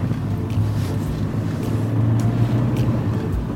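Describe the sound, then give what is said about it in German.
A car driving along a state road toward a valley, heard as a steady low engine and road rumble with some wind noise, continuous and even throughout with no talk. “So, nach Nordwesten, das heißt, wir fahren über die L412 Richtung Villeracher Talsenke.”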